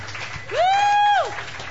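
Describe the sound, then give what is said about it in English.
Audience applause for the brunch chefs, a steady wash of clapping with one long, high tone that rises, holds and falls in the middle. “Big hand for our chefs.”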